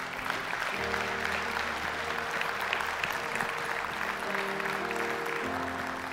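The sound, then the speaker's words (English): A church audience applauds a family bringing a baby forward for dedication: thick, even clapping from many hands that holds steady for about six seconds, with a low sustained hum beneath. “Why don't you put your hands together and welcome them today.”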